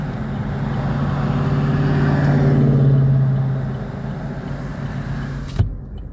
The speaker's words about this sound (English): across the street right now, there's this yellow concrete truck stopping up traffic.